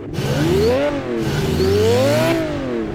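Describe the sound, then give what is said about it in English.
A turbocharged 6-liter V12 Aston Martin engine revs loudly, its droning pitch swelling upward and easing back down twice in a continuous roar with no pause. “Just a little 6-liter V12 turbocharged from an Aston Martin. Oh, my God. Yeah, you got that right. Come on, don't worry. I got forged internals in this bad boy. Rev her up a little bit.”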